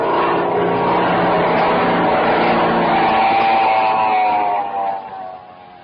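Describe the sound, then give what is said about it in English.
A car engine drones as the vehicle drives toward a cabin, a rough, even hum that holds steady and then drops away sharply near the end. “Here comes that fellow again. He's driving straight for the cabin.”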